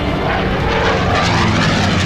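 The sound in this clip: An airplane from Chongqing, ordered released for takeoff, gives off a loud, continuous engine roar that stays broad and even throughout, with no talk.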